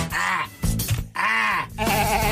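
A person imitates a goat, letting out a few loud, quavering bleats with a nasal, shaky tone, separated by short lower grunting sounds.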